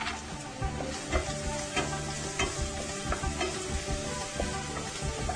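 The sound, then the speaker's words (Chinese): Minced garlic and ginger sizzling in hot oil as they are stir-fried for a shredded pork dish, a loud, steady crackling hiss broken by repeated stirring scrapes. “我们把我们这个先把这个蒜末跟姜末哈下去爆香一下。”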